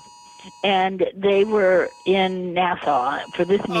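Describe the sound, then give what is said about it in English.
A presidential alert text tone sounds on a cell phone in 2018: steady, buzzy electronic tones run under continuous talk throughout. “That is the president texting everybody. That is Trump's text that went out to every cell phone. That's what that noise was.”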